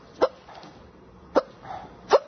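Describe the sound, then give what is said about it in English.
A woman hiccups three times. Each is a short, sharp, gulping burst separated by roughly a second of quiet. “She's still hiccuping.”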